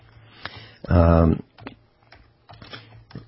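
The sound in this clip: Computer keyboard typing, a few faint, light key clicks scattered around a brief louder spoken word.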